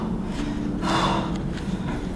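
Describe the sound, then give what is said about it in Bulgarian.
Forceful breath during a breathing exercise, a single loud, rushing burst of air mid-clip over steady low background noise. “Дълбоко вдишване, рязко издишване.”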